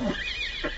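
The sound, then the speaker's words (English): A horse neighing, one brief whinny that stands out clearly and alone. “Oh, those stupid horses! I suppose that noise was ordained by heaven to assist my examination of the patient.”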